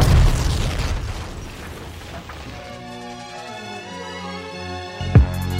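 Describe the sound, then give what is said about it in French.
A bomb blast on a bus, heard as a loud broad roaring boom that fades away over a few seconds into sustained tones. “L'homme s'est fait exploser.”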